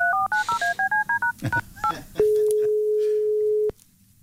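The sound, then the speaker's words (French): A telephone call is placed: a quick run of about a dozen touch-tone beeps is followed by one long, steady ringing tone. The tone cuts off abruptly, with no voices. “Appelons-le pour prendre quelques nouvelles.”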